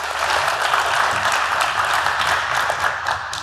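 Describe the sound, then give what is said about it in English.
Audience clapping at a talk event to welcome a speaker, a steady, dense applause of many hands holding at a fairly even level throughout. “So what I need, I need you to start clapping, but very, very gently. Can you start clapping very gently? Yeah, and now just bring it up a bit more.”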